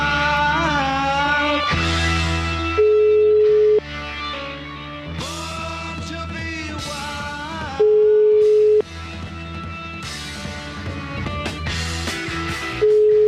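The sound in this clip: Telephone line tone heard while calling back: three steady one-second beeps, repeating roughly every five seconds, sit under loud music playing throughout.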